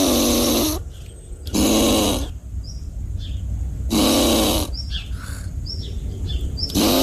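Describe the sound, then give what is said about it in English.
A squirrel, caught on a hidden camera, makes harsh warning calls at a bird. Three loud snore-like rasping bursts stand out, with brief bird chirps and tweets scattered through the quieter gaps. “And the squirrel is trying to make a noise that will tell the bird to head off and leave him alone.”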